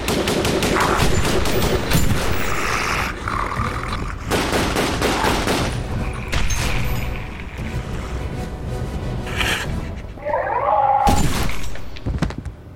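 Rapid gunfire from several guns during a fight at a stairwell door: long, loud, dense bursts of shots run almost without a break, with no talk heard.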